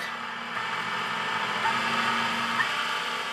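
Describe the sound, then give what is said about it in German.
A kitchen mixer runs as a sound effect, giving a steady whirring, rattling drone that holds at an even loudness throughout, with no voices. “Ein Wort im Mixer, was für ein Gerassel. Wir suchen natürlich die... Den Deckel auf, dann kommt es rein, das lustige Wort. Ich mix es fein.”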